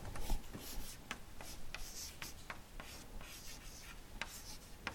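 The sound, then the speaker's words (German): Writing names on a board during a lecture makes many short scratchy strokes and light taps in an irregular rhythm. The sound is fairly faint, with no talk over it. “da schreibe ich Ihnen jetzt ein paar Namen auf”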